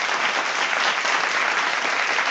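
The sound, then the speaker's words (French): Audience applause fills the whole stretch, a dense, loud mass of clapping that holds at an even level. “Si quelqu'un mérite un clapping.”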